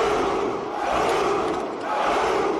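A massed army of soldiers, around a thousand men, shouts in unison. The result is one sustained, dense roar that swells slightly and holds at full loudness to the end.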